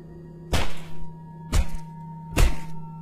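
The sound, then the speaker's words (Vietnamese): A hammer striking flesh and bone: three heavy, dull thuds spaced about a second apart, each with a short rumbling tail, over a steady low hum. “Tiếng da thịt bị đập dập, tiếng búa đập vào xương vang vọng.”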